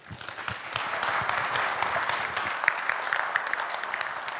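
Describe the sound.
Audience applause welcoming a guest pastor to the stage at a gathering. Many hands clap in a dense, steady wash at a moderate level throughout, with a few sharper claps standing out.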